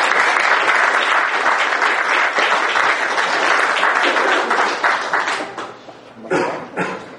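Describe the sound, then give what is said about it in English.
Church audience applauding its worship leaders after a morning service, with loud, dense clapping for about five seconds that then thins out and dies away into a few scattered claps. “I think let's give them a little round of applause.”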